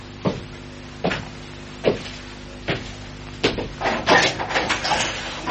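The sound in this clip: A door is opened carefully in an acted drama: four evenly spaced soft knocks or thumps, then a quicker run of rattling clicks and creaks as it opens.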